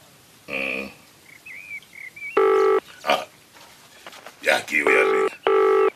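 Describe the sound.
Keypad tones sound as a telephone number is dialed: a few short, buzzy beeps separated by uneven gaps, with other brief sounds in between.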